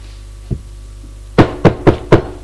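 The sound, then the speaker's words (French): Knocking on a bedroom door in a house: a faint tap, then a quick series of firm, evenly spaced knocks, sharp and loud with no voices. “on frappe à la porte.”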